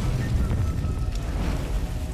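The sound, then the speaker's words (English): Fire billows up from a rooftop in a dense, continuous roar with low rumbling and crackling hiss, steady and fairly loud throughout. “Fire billowing up from a rooftop.”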